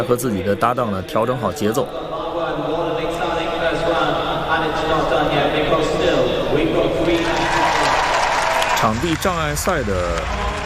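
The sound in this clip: Spectators at a show jumping event cheer and applaud wildly after a rider's double clear round. The crowd makes a continuous dense roar, and a commentator talks over it at the start and the end.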